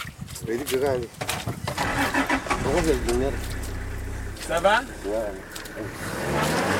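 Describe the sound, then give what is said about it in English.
An engine revs as a vehicle stuck in mud in Chad strains on the way to Gaga camp, rising and falling whines swelling over a low rumble while people talk throughout. “This is sound of getting stuck in the mud in Chad on the way to Gaga camp.”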